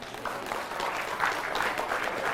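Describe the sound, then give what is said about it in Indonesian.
Audience applause during a speech about Islamic boarding schools: steady, moderately loud clapping that runs evenly for about two seconds, with no talk over it. “Jadi bunyi tepuk tangannya, tepuk tangan orang kepanasan.”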